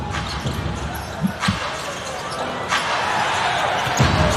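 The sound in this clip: A basketball dribbled near the basket during a basketball game, a few dull bounces under continuous crowd noise and talk.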